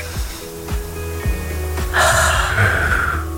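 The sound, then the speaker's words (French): A deep inhale during a breathing exercise: one long, breathy intake of air fills the second half, loud and rushing, over a steady low tonal background. “Encore une fois, je souffle. D'accord. Inspire.”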